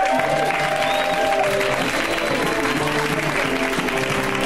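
Steady audience applause for a comic at a stand-up comedy show, a dense, even wash of clapping with crowd noise that holds at a constant level for the whole stretch.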